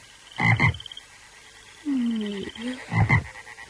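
Frogs croaking in a chorus: two clusters of harsh, rattling croaks with a smoother, lower drawn-out call between them, loud and clear with no talking.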